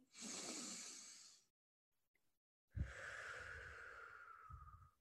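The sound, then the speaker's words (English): A deep breath drawn in, taken on a count of three: a loud, airy rush of breath, a short silence, then a second long, breathy sound that begins with a snort-like push. “So on the count of three, let's take that deep breath in. One, two, three.”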